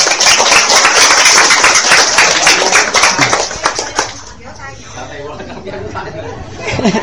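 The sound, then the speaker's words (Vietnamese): Several people clap their hands together in a quick, dense patter over murmuring chatter for about four seconds, then the clapping fades and quieter talking carries on. “À, vỗ tay.”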